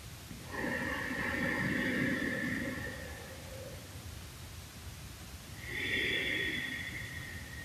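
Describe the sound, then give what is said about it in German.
Slow, deep belly breathing in and out during a relaxation exercise, with two long, soft, airy breaths that swell and fade, separated by a quiet pause and with no talk. “indem das beim Einatmen die Bauchdecke sich hebt, mit dem Ausatmen die Bauchdecke wieder senkt. Ein zweites Mal.”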